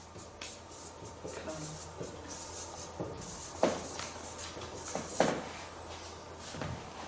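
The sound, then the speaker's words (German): Handwriting a word: soft, scratchy pen strokes on paper come in a few short, irregular bursts over a low, steady background. “Schau mal, wenn ich jetzt das Wort hell austausche und schreibe jetzt rein.”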